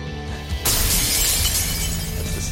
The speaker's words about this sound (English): That's the sound of ice.